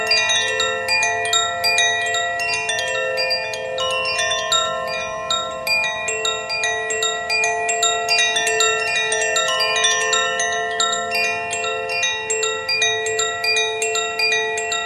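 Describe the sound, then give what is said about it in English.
Chimes play steadily, with many overlapping bright, ringing tones struck in quick succession and sustained throughout at an even volume, with no voices. “We'll play the chimes just a moment longer.”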